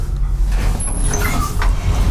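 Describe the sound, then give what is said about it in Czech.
Elevator doors slide open on the sixth floor of a high-rise building in Prague: a steady, even mechanical rumble with faint, brief whirring tones and no sharp clunks, heard without speech. “Dveře výtahu se otevřely.”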